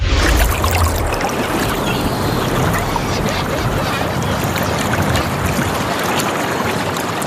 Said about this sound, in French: D'un coup, en studio, je suis transportée sur le bord de mer. Ah, la fraîcheur, grâce à Ici Cotentin.